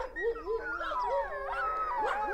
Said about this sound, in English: what's with all the barking? I can't even see anything. These dogs must have just seen a cat.